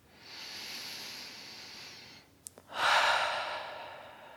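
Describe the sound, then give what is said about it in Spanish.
Deep breathing during a guided breathing exercise: a long, soft, hissing inhale, a short pause with faint clicks, then a louder, fuller exhale through a wide-open mouth. “Vamos a hacer tres más así, inhalando profundo y suave y soltando por la boca casi completamente abierta.”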